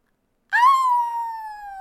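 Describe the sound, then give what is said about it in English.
A human voice imitates wolves howling with one long, tonal howl that starts abruptly after a silence, swells briefly in pitch, then slides slowly downward while holding loud and steady to the end. “you hear wolves.”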